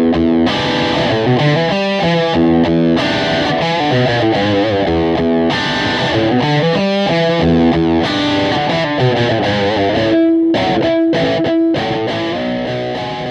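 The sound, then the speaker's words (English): Electric guitar through a GFX 707 multi-effects unit on an overdrive patch, playing loud, distorted chords and riffs in a driving rhythm, thinning to a few sustained single notes near the end. “let's get down and get busy with the GFX 707, and we're going to let you check out some patch sounds. Doing that, we're going to kick off right now with Overdrive”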